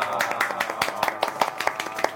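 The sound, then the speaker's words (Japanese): Audience applause at a gathering where a homemade game creator is introduced: many crisp, rapid claps, fairly loud and continuous throughout. “なんかこれ拍手が大きいように出すの気のせいですかね。”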